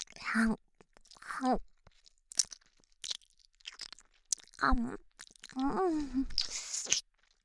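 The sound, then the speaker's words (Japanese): Wet chewing of something sticky, with soft smacking and crunching between voiced groans and murmurs. “おえねっとりとしていて最低の噛み心地じゃん。”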